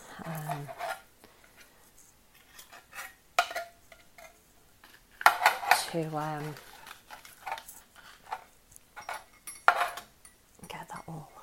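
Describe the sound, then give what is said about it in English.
Spoon-on-pot clinks and scraping while lentils and tomatoes are stirred in a cooking pot, a run of faint irregular taps and knocks with a few sharper hits and brief murmurs of voice. “So just when I'm mixing like the lentils and tomatoes in, I feel a bit more confident. So that says you want to mix it for constantly for a couple of minutes.”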